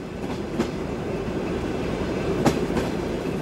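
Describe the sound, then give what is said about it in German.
A train travelling on rails, a steady rolling rumble broken by a few sharp clacks of the wheels, with no voices. “Im August 1952 werden die 4 Verurteilten mit vielen anderen mit dem Zug von Berlin nach Moskau geschickt.”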